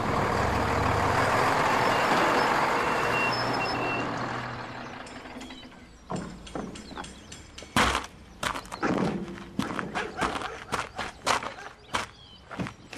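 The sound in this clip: A truck arrives with a loud, broad engine rumble that gradually dies away, followed by many sharp clanks, thuds and footsteps of irregular rhythm.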